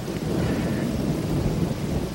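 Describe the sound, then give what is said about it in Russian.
Thunder rolls after a lightning flash, a deep continuous rumble with steady rain hissing underneath, holding at an even loudness throughout without distinct separate claps. “тут сверкнула молния, и где-то не очень далеко загремел гром.”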